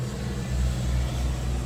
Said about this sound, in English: Sorry, a big car passing. There was a bus passing by, sorry.